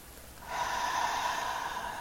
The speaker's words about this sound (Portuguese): E pela terceira e última vez, Inspira pelo nariz